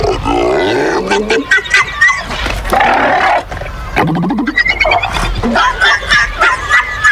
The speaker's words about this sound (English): Guess what these seals are saying instead?